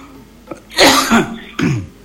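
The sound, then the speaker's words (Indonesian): A few harsh, raspy coughs with a throaty, phlegmy edge, loud and alone, the first burst the strongest and a shorter one following. “Nyai mah cucu ngobrol sok jadi batuk teh ka hartiku naon nya.”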